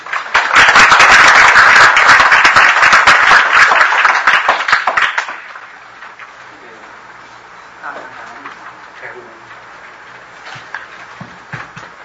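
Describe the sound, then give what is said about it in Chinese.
Loud audience applause welcoming a teacher to a talk on the 228 Incident, dense clapping that holds for several seconds and then dies away, with people talking afterwards. “我们是不是以一个热烈的掌声来欢迎张老师。”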